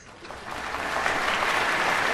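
Audience applause before a school choir's annual autumn concert, rising from a soft onset into full, even clapping that stays loud and steady throughout.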